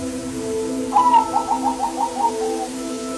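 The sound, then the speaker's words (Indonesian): Zebra doves coo loudly into a back courtyard: a quick run of about seven short, bright notes over a steady low harmonic hum. “Terdengar beberapa ekor burung perkutut berbunyi nyaring sampai ke halaman belakang.”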